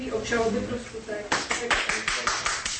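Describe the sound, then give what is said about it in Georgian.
Hand clapping from a Czech journalist and human-rights advocate as a court announces a not-guilty verdict. A short stretch of talking comes first, then a run of sharp, evenly spaced claps at moderate loudness. “ასეთი რეაქციით ტაშით შეხვდა პეტრუშკა შუსტროვა, ცნობილი ჩეხი პუბლიცისტი და უფლებადამცავი, განაჩენის გამოცხადებისას ცნობას, რომ საქართველოს ეს მოქალაქეები არ არიან დამნაშავე.”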